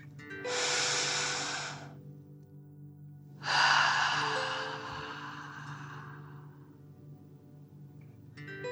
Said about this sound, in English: Breathing in through your nose and breathing fire out of your mouth. Again, deep breath in and out.